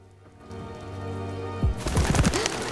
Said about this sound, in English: The pigeons cause her to shy away.